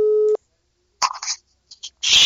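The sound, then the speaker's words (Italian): A telephone line tone on a call that goes unanswered: a single steady mid-pitched tone, cut short near the start, followed by brief bursts of voice. “Ecco, suona libero, ma nessuno risponde.”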